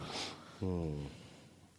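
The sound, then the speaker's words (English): Sniffing from allergies: a short, breathy sniff through the nose, followed by a brief voiced nasal snort over a low background hum. “What are you doing? Sniffing? What's with the sniffs?”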